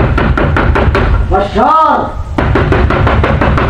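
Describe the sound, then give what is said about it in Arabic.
Knocking on a door comes as a steady run of many sharp, evenly spaced raps. It pauses briefly in the middle while a voice sounds, then resumes at the same pace. “من يدق الباب دق الشرط؟”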